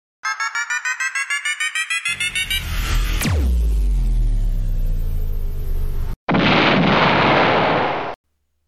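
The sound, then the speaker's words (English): A pocket-sized antimatter death ray gun fires with a quick run of rising electronic beeps charging up, then a sharp zap that sweeps down into a heavy rumble, a brief cut, and a harsh, loud blast. “he reached for his pocket-sized antimatter death ray gun of doom and pulled the trigger.”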